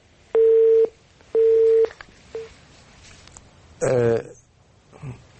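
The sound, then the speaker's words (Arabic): An incoming telephone call, heard as two long steady electronic ring tones and a brief third tone, followed by a short burst of a voice. “معنا اتصال من تونس.”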